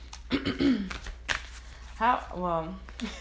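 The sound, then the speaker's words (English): An angel oracle card deck is shuffled, giving a few quick, crisp papery riffles and snaps, mixed with brief, fairly faint vocal sounds. “I'm pulling from my Angel Oracle card deck. Very different because you guys cannot see anything. You can just hear my cards kind of in the background.”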